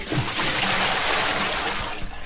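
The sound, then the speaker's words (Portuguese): Cold water poured from a bucket makes a loud, continuous rushing splash for about two seconds, then tapers slightly at the end. “Agora, o balde de água fria.”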